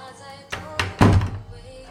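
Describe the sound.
A bedroom door in an apartment is shut with a few dull, hollow thuds, the last one heaviest, with no one talking over them.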